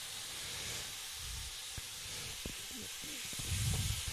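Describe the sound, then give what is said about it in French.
Faint, steady sizzling hiss of thawed food put on to grill in a kitchen, broken by a few soft clicks and bumps, growing slightly louder near the end. “Hop, je mets tout ça à griller.”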